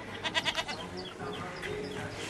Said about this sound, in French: Les habitants ont installé leurs chèvres et leurs poules juste à côté.